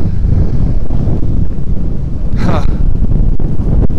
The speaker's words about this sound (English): Here comes the wind. Yeah. Right. So we listened back to a little bit of this, and the wind's not hindering our conversation, so that's good.